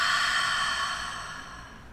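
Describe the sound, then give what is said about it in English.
A long, breathy exhale during a guided breathing exercise, a soft airy hiss that starts at full strength and gradually fades over about two seconds, with no talking over it. “Hold it, and then exhale out.”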